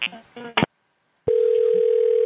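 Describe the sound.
A telephone ringback tone on a call to Walgreens: a few words of talk, a short silence, then one steady, unbroken tone that holds to the end.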